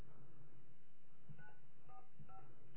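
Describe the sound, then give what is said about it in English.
Telephone dialing tones from a phone keypad: a few short, faint tone bursts in the second half over a low, muffled hum on a narrowband line. “Oh, dial it again. Do you have to push 9 first?”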